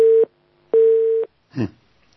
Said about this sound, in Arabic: الخط فصل.